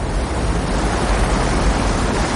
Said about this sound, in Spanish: precavido bajo las cortinas de agua. Apenas es un punto blanco junto a la inmensidad de la cascada.